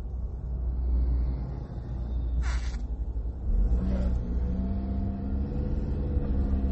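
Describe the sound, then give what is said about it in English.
Car driving along a road, a steady low engine and road rumble that continues throughout, with a couple of brief brighter bursts partway through. “Sorry about that. I'm driving, and every day that I drive on this road, I lose hope for humanity.”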